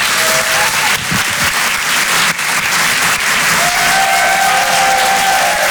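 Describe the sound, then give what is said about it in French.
Loud applause and cheering from a comedy theatre audience in Paris as a comedian is welcomed. Dense, sustained clapping fills the whole stretch, with a few whistles rising above it in the later part. “Je vous demande de faire un maximum de bruit, s'il vous plaît, pour Richard Sabac.”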